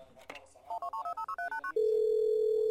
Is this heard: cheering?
no